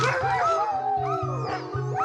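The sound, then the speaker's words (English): Sled dogs bark and howl together in a loud, continuous chorus of wavering, overlapping howls and yips over a steady rhythmic low pulsing, with no talk. “I depend on my dogs 100% to get me safely from point A to point B. I currently have 24 adults and one puppy.”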